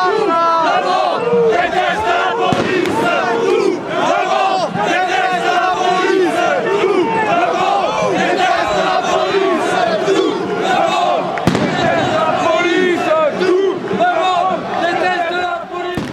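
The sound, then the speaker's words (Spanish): A yellow vest protest crowd chants during a Paris march against police violence: many voices shout loud, rhythmic slogans without letup, with cheers mixed in. “Escuchábamos a los manifestantes de la Marche Blanche, Marcha Blanca de París, una marcha de los chalecos amarillos que tuvo lugar el pasado 2 de febrero”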